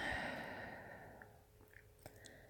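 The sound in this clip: A single soft, slow breath released during a calm relaxation exercise, a faint airy hush that fades gradually, followed by a few tiny clicks in near silence.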